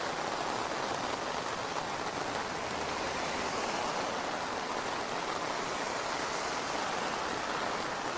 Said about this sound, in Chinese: 这个雨量也是还是没有减小的趋势啊，一直在比较大的下。